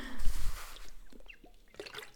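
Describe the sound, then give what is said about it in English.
Someone drinks water, with a short liquid burst at the start and then faint trickling and swallowing sounds that fade quietly. “Gonna drink some water.”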